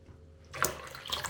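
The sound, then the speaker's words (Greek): Water poured into flour for dough, a faint, soft splashing trickle that begins after a quiet moment and carries on, slightly uneven, to the end. “Μετά βάζεις το αλευράκι. Αφού συμπληρώσεις και το νερό το υπόλοιπο.”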